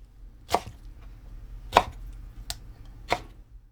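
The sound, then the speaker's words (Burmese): Four sharp knife chops strike a chopping board as leaf stems are cut, spaced unevenly over a low steady hum, with no talking. “အရွက်တွေကိုစနေတုံးပေါ်မှာတင်အရင်းကိုဖြတ်ထုတ်လိုက်ပြီးလို့ရှိရင်”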